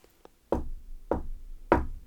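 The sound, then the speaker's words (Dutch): Three firm, evenly spaced knocks on the door of a small house in the woods, each a dull, resonant thud, after two faint light taps. “Nieuwsgierig naar wie er zo diep in het bos woonde, klopte ze op de deur.”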